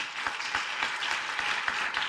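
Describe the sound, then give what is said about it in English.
Rhythmic clapping from a church audience: a steady run of many evenly spaced claps at moderate loudness, with no voices. “Clap for Jesus Christ.”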